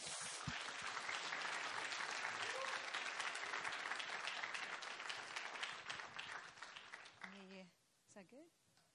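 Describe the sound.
Applause from a church audience welcoming a speaker: dense, sustained clapping that holds steady for about seven seconds, then thins and fades as a single voice begins speaking.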